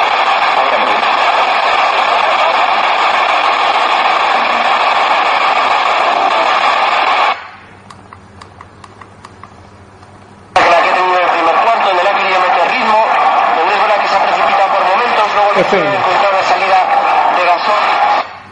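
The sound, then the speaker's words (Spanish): An FM radio scans through stations. Loud, dense station audio with a voice gives way to a quieter stretch of faint hum and ticking, then broadcast sound abruptly returns at full level as the tuner stops. “Se la voy a parar a la 95.9. Esto es FM, fijaos el rastreo como lo hace.”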